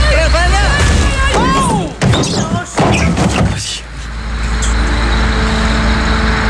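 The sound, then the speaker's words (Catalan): A vehicle drives straight through without braking and crushes a Mac, giving a few heavy thuds and crunches over voices, then settling into steady engine and road noise. “El conductor tenia totalment prohibit frenar i desviar-se de la trajectòria. S'ha carregat el Mac.”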